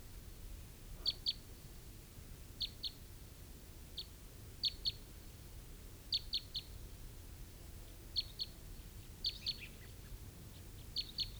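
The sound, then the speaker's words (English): Type 3 crossbills call outdoors with faint, sharp high chips, often in pairs, repeated every second or two over a low background rumble. “I think I hear some crossbills.”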